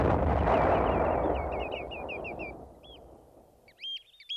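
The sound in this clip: A cannon net fires with one loud, booming blast to catch wading birds such as dunlin, redshank, oystercatchers and ringed plovers. The blast fades over about two seconds, and a few high, chirping bird calls follow.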